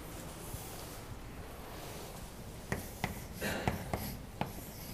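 Writing on a board during a math lecture: several short, scratchy strokes and taps clustered in the second half over a steady background hiss, with no voice.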